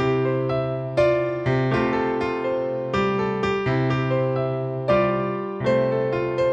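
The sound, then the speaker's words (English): Piano alternating C and F chords over a repeated low C pedal note, the chords struck in a steady rhythm and left to ring and decay between strikes, played alone. “It's just these two chords, C and an F. It sounds kind of like this.”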